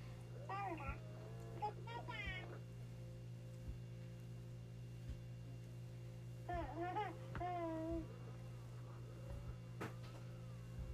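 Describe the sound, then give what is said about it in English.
A motorized robotic baby doll babbles in a few short, warbling bursts of high, baby-like vocal sounds, separated by pauses over a steady low hum, all fairly faint. “I have to be quiet so she won't start babbling again. Just like with a real baby.”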